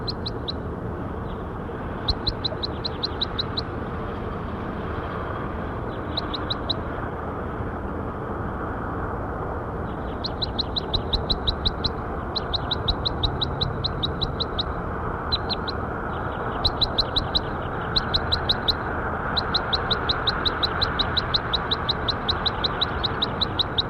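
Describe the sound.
Bird calls from an outdoor survey recording: many short bursts of high chirping come and go over a steady, loud low rumble.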